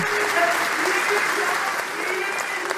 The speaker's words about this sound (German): Bis rufen sie, was heißt eben ein zweites Mal, was oft in, in Konzerten und so benutzt wird für eine Zugabe. Und sie haben ihm das zugerufen, weil sie eben hoffen, dass er doch noch einmal